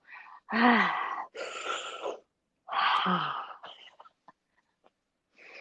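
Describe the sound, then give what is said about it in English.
Deep breaths taken as a breathing exercise: a few long, loud breaths, some ending in a voiced, groan-like sigh, separated by short pauses, with no talk. “Let's take about 5 deep breaths lang, just to kind of clear our heads”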